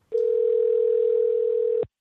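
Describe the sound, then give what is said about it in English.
A telephone tone sounds while dialing a caller: one continuous, steady mid-pitched tone lasting nearly two seconds that cuts off abruptly, clean and without speech. “Go ahead and dial her.”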